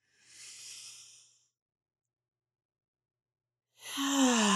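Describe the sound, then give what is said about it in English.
A deep breath drawn in through the nose as a soft airy hiss, then a pause of silence and a louder, voiced exhale through the mouth that sighs downward in pitch. “So we're going to inhale and we're going to hold for a few counts and then we're going to exhale. And here we go. In through the nose.”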